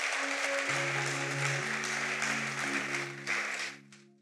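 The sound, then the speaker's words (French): Congregation cheering and applauding during a church service, a broad wash of crowd noise over sustained musical tones, staying fairly even before fading out near the end. “Est-ce qu'on peut acclamer juste un peu pour le Seigneur?”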